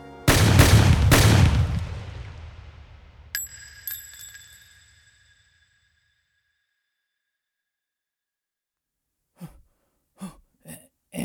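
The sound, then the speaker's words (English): Three loud gunshots in quick succession ring out and fade slowly, followed by two bright metallic pings and, after a long silence, a few short clicks. “Oh, you shot the interns.”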